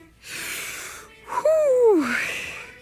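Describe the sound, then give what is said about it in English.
A person takes a deep breath: a long, noisy inhale, then a voiced sigh that slides down in pitch, followed by more airy breathing. “I promise I'd be nice, so I'm just taking a breath before I speak.”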